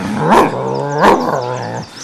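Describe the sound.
A dog growls in two low, rumbling, harmonic-rich swells over about two seconds. Each swell grows louder and then trails off, with no talk around it.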